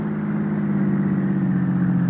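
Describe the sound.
A car drives up to a house, its engine producing a steady, low, continuous rumble that holds even throughout, with no voices.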